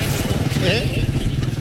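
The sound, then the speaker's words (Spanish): Engine of a racing motorcycle at a motorcycle race, a steady buzzing drone under a voice talking throughout. “La moto 314 de Marcelito Araya, el hombre de Libertad.”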